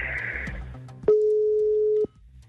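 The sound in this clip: Ringback tone of an outgoing telephone call: a single steady, pure mid-pitched tone holding for about one second, loud and clean, then cutting off to near silence.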